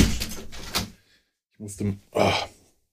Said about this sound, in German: Ich musste gerade mal eben aufstehen, das Fenster zumachen, denn etwas, was Köln auch Bad Lippspringe voraus hat, ist der Lärm, der hier viel größer ist.